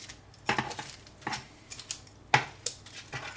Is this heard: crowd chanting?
no